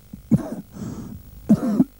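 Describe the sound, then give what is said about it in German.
A patient coughs twice during a doctor's examination, two short, rough, voiced bursts spaced about a second apart with quieter breathy sound between them. “Husten.”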